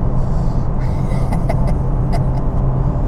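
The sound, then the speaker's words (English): Car engine in a racing video game, running at speed in fifth gear on winter tires. A loud, continuous low drone holds steady, with a few faint clicks above it. “Let's take fifth gear. Get these tires warmed up.”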